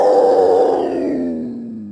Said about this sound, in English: The mystery sound is the cougar, Puma concolor, also known as the mountain lion.